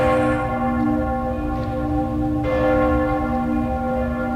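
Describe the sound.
Bells of Cologne Cathedral ringing, a loud, continuous wash of deep, overlapping metallic tones that hum and sustain throughout, with fresh strikes renewing the sound partway through. No voices are heard.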